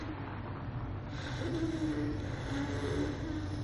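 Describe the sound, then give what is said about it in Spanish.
A car's engine rumbles as it pulls away from a hospital entrance after leaving an injured young man on the asphalt. The drone stays low, steady and fairly faint, with no voices. “El coche se aleja.”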